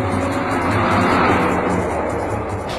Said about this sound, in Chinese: 这天又到了黄昏时分，苗镇他们开车又一次由西向东开向事发地点。